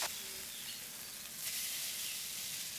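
Tofu sizzles as it goes into a hot pan with turmeric and tamari soy sauce for a tofu scramble, giving a steady, bright frying hiss that starts at once and holds evenly, with no talk.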